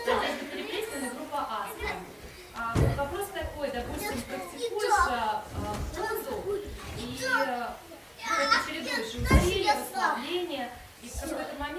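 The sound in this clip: A young child talks and plays in a room during an indoor hatha yoga seminar question session. The small voice chatters almost continuously with uneven loudness and a few sharper bursts.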